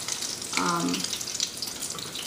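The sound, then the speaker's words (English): Food sizzling as it fries in a pan, with an egg cooking among already cooked ingredients; a steady, bright crackling hiss carries on throughout the short stretch. “And these are not going to take very long to fry at all.”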